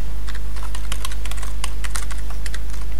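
Computer keyboard typing as code is written for a constructor: a quick, irregular patter of many sharp key clicks over a loud, steady low hum.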